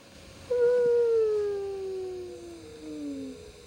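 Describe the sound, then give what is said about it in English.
A whale feeding call: one long, smooth tonal moan with clear overtones that glides slowly downward in pitch over about three seconds, heard alone over a steady background hiss. “I'm not surprised there was a lot of whales around. Here's a little half-feeding call.”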